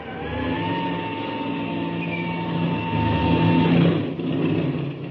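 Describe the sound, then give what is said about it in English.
Airplane engine warming up after starting, throttle cracked slightly open: a loud, steady droning hum with a low rumble underneath, swelling a little toward the end. “I'll crack the throttle open a little bit and let her warm up.”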